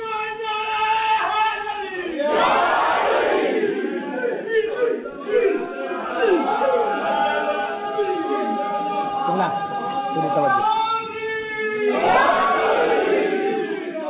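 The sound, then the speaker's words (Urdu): A crowd at a religious gathering marking Ali's birth on 13 Rajab shouts a slogan together in unison, with loud surges of massed voices that rise and fall repeatedly, with sustained chanted tones. “جو علی کی محبت کی شراب پینا چاہتا ہے وہ اتنا بھرنگ نعرہ لگائے مجھے پتہ چلے کہ پینے والے جمع ہیں”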